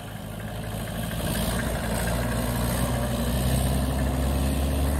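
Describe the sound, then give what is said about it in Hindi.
A tractor engine runs slowly, giving a deep, steady chugging drone that swells a little after the first second and then holds level. “ये देखे किसान भाइयों पिछला tractor बिल्कुल slow है”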